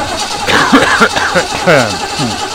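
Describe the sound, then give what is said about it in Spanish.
A V8 engine sound effect of an old motor, brief and rough, with falling harmonic sweeps as it turns over and revs for a couple of seconds. “Perdón, necesitamos un V8.”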